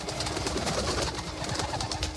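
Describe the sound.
An owl and a parrot fly in with wings flapping in a rapid, dense, steady flutter. No voices.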